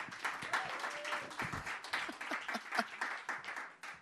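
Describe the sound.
Audience applause at a live storytelling show: dense, continuous clapping from many hands, fairly faint, with uneven swells and no clear pause.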